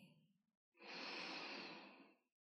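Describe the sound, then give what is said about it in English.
A deep inhale during guided breathing comes in as one long, smooth, airy breath of about a second and a half. A fainter, brief breath sound comes before it. “Inhale deeply.”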